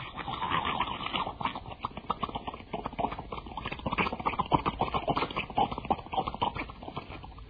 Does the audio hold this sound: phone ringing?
no